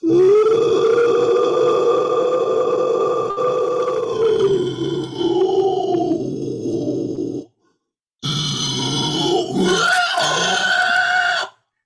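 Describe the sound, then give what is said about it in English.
Inhaled vocal distortion made on the vocal cords: a long, gritty, growling voiced tone that holds steady, then sags lower and stops. After a short silence, a second rough, strained burst follows. “And it's quite unusual because we're not used to produce sound while inhaling. We produce sound exhaling, right? And this is something that the vocal distortion is done on the vocal cords.”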